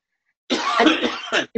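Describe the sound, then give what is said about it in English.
A person coughs once harshly for nearly a second, a rough, breathy burst with some throat clearing, followed by a brief second cough right after. “We both have a little bit of cough going on today.”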